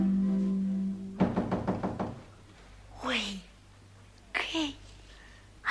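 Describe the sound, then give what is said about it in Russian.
Knocking on a door: a quick run of several sharp, evenly spaced raps that cuts off a sustained tone. A child's voice follows briefly, speaking twice with rising and falling inflection. “она стучит? Она же знает, что мы не запираемся.”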